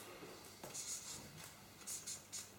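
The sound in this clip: Soft scratching of a pen writing on paper, a few quick, faint strokes in short bursts with small pauses between them.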